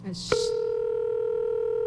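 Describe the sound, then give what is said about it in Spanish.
A telephone call being placed: a short voice murmur, then a brief click and a steady mid-pitched line tone that holds unbroken to the end. “Espérate, déjame ver si me contesta. Espérate. Estamos llamando.”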